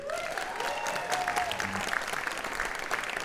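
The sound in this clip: An audience at Infinity Hall applauds to welcome a band, a dense, steady wash of clapping that holds at an even level throughout.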